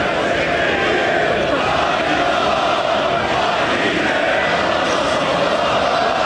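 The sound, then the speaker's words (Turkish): Football fans celebrating the yellow-red team's fourth straight and 26th overall championship in Erzurum, Turkey: a dense, loud crowd roar of many shouting voices, steady and continuous throughout. “tüm yurtta olduğu gibi Dadaşlar Diyarı Erzurum'da da taraftarlar şampiyonluğu coşkuyla kutladı.”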